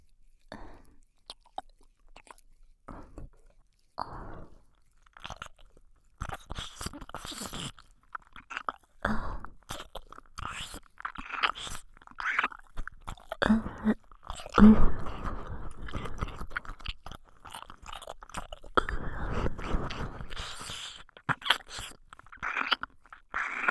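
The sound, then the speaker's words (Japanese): ASMR mouth sounds of a tongue licking inside the ear: soft, wet clicks, smacks and slurps in irregular bursts, quiet and close, continuing with many small events and brief pauses throughout. “ここからはもっと激しく、坊ちゃまのお耳の中まで舌を入れて、愛撫させていただきます。”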